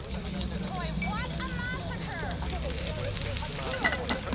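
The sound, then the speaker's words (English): Rabbit meat and onion sizzle in a pan with added liquid, making a steady, dense crackling hiss throughout, over a low hum and other faint sounds. “he butchers the rabbit, throwing meat into a pan, then adding onion and liquid.”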